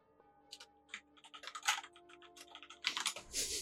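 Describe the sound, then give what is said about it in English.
Rapid keyboard typing as someone writes a message, a quick run of many light, crisp clicks with uneven rhythm and a few louder taps, fairly faint throughout, with no talking. “Hang on, I'm gonna message Amanda about a shirt idea. So funny. Hold on, real quick, I gotta write that down.”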